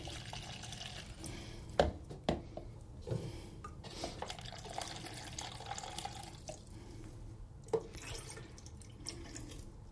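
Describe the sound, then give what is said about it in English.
Water running and dripping while something is washed by hand, a steady liquid wash with a few sharper splashes standing out. “Try and get the bulk of everything off. And then two longer washes. Get it with a bit more water.”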